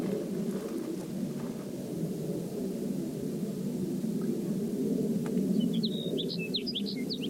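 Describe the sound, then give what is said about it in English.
A sage sparrow calls in a quick cluster of high, thin chirps near the end, fairly faint above a steady low rumble of background noise. “The previous bird, Sage Sparrow number one, was collected”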